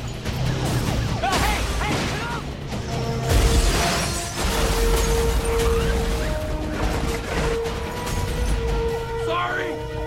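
A truck slams into parked cars, including a delivery car and a pickup, making crashing metal and crunching wreckage. Several loud impacts and scraping bursts sound over a constant heavy rumble.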